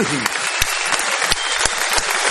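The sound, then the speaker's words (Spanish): Audience applause honoring a retired football player, dense and loud continuous clapping with a few sharper individual claps standing out. “De manera, pueden aplaudir.”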